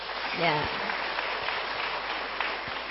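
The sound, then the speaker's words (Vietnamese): Audience applause after a question-and-answer segment at a live event, a steady, dense patter of many hands that stays level throughout, with a brief voice near the start. “Quá đầy đủ rồi, nếu như quá đầy đủ rồi thì mình vỗ tay thật lớn ạ.”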